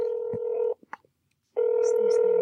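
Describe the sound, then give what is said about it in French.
A telephone call being dialed: a steady dial tone cuts off for a moment, a few short beeps and clicks sound in the gap, then the tone returns. “Ok, fait qu'on on l'appelle.”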